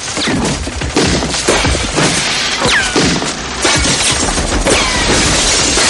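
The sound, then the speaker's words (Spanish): Gunfire with bullets piercing walls in a 1997 film-noir shootout: many sharp cracks mixed with shattering and crashing impacts, loud and unbroken for about six seconds with no talk. “Esli dispara. ¡Fuego! Esli y White se tiran al suelo.”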